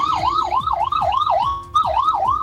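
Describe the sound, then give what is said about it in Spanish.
A fire engine's siren blares as firefighters rush at high speed through heavy traffic. It wails loudly in rapid up-and-down sweeps, cycling steadily with a brief break midway, and no voices are heard. “Hago un silencio porque está pasando personal de bomberos a alta velocidad, llegando recién al lugar, dada la dificultad de tránsito”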